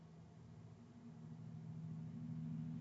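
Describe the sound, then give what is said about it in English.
A truck passing outside gives a faint, steady low engine rumble that slowly grows a little louder over a few seconds. “Sorry, there's a truck passing outside.”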